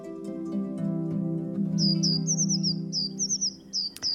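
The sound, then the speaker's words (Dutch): Late-fledged young great tits and blue tits call from a hawthorn bush, giving a string of short, high, repeated chirps in the second half, over a steady low hum. “En in de meidoorn zit een stel laat uitgevlogen koolmeesjes. Hun ouders vliegen af en aan met rupsen. Ook 2 jonge pimpelmezen liften mee met het stel.”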